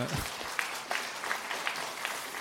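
Tepid applause, sparse scattered hand claps that stay faint and uneven from start to finish.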